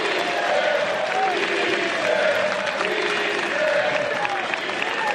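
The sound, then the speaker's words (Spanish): Football fans singing and cheering at Montilivi stadium in Girona after a win: a dense, sustained roar from a large crowd with a chanted melody carried on top, loud and steady throughout. “Hay que escuchar lo que canta Montilivi.”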